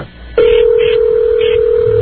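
Telephone busy signal on an on-air radio phone call: after a brief quiet moment, a loud, steady mid-pitched tone starts abruptly and holds unbroken to the end.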